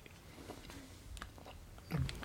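Soft chewing of a mouthful of gummy panda candies, Katjes-style bears with licorice, with faint, irregular wet bites and a slightly louder bite near the end.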